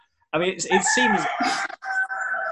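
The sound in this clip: A cockerel crows loudly in a long, strained call that breaks into several harmonic segments and ends in a steadier held note, lasting a couple of seconds.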